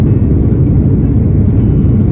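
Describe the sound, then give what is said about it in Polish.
The engines of an Airbus A330 roar as the jet accelerates for takeoff from Copenhagen, heard aboard as a loud, steady low rumble and whir with no voices over it. “Trochę głośny to na 330. A już się rozpędzamy i zaczynamy lot do Chicago.”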